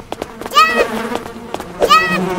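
Bees in a video game buzz in two short, loud droning swells that waver in pitch, set over a busy background of clicks and other game sounds.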